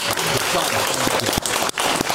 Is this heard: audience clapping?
yes